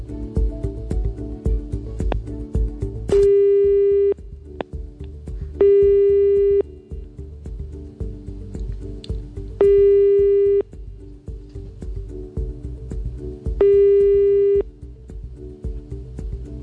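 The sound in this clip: Telephone ringback tone heard while a call is being placed: four evenly spaced, steady single-pitch beeps, each about a second long, recurring roughly every four seconds over a continuous low background.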